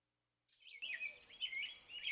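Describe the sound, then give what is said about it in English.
Birds sing on a spring morning: faint, high-pitched chirps and quick trills run continuously for over a second and a half after a brief silence. “The sun is shining, the birds are singing. It's a lovely spring morning.”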